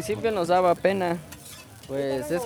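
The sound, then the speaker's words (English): A snack fries and is stirred on a street vendor's skillet: three bursts of squeaky scraping from the stirring over a soft sizzle, with brief quieter gaps between them. “So a few years back, he added a skillet and started selling the popular snack as well.”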